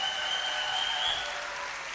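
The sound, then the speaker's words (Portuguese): Applause from an audience cheering a band at a live show: a dense, steady wash of clapping that holds at an even level for the whole two seconds. “atrás de mim eu tenho uma banda incrível, uma grande salva de palmas, por favor.”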